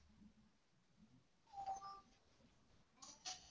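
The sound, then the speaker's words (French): A cat meows faintly in a short, tonal call, with a brief second sound following a moment later in an otherwise quiet space. “Voilà, c'était mon chat qui s'exprimait.”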